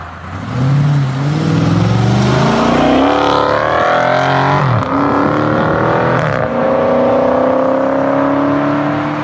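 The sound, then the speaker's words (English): Exhaust of a Dodge Challenger Scat Pack pulling out at Kenosha Pass: a loud, continuous engine roar that climbs steadily in pitch as it accelerates, dipping briefly at a couple of gear shifts before rising again. “It has such a delightful exhaust noise. Here's you pulling out of, this is, Kenosha Pass, right?”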